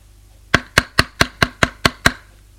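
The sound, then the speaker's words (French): Knocking on a door, eight sharp even raps in a quick steady rhythm, loud and alone against a quiet background. “Il frappe et entre.”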